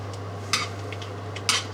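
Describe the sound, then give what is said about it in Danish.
Light metallic taps as spaghetti is lifted with tweezers from peppered water into a frying pan, two brief sharp clicks about a second apart over a low, steady hum. “Og nu begynder jeg at tage spaghettien med min pincet og smide over på panden”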